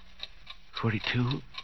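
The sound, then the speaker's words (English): A clock ticks steadily with quick, evenly spaced faint ticks, while a voice talks over the second half. “The clock's beginning to look like people, like Mama.”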